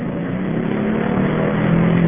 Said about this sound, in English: The following is the sound of the motor of my VW in El Centro and the El Centro air rushing by.